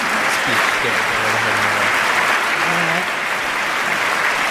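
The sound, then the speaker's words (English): Audience applause in Congress forms a dense, steady wash of clapping, and a voice talks over it throughout. “But he's getting clapped.”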